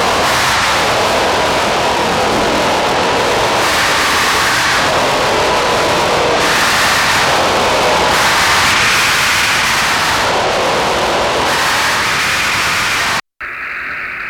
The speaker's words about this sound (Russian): Это белый шум космоса.